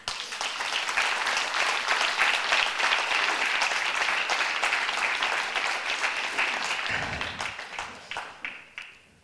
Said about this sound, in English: Church, would you put your hands together as I welcome up our fantastic prayer panel to the stage?